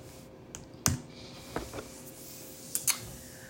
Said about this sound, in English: I got to type this in, y'all.